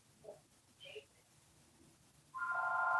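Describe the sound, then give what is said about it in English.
A telephone ringing during a talk: near silence with a few faint blips, then a loud, steady electronic ring starts and holds to the end. “sorry about the phone.”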